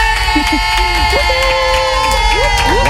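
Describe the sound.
A game show studio audience cheers to welcome a contestant on a Monday, with loud, sustained whoops, shouts and cheering over a continuous tonal background, the crowd noise staying dense from start to finish.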